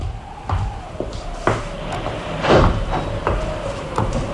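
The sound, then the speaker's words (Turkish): A drawer being pulled open: a few short knocks and rattles, then a louder scraping slide in the middle, with no talk. “Şurada çekmecenin içinde eski resimler olacak.”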